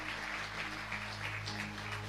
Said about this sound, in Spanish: ¿Cuántos pueden dar fuertes palmas a Dios Todopoderoso?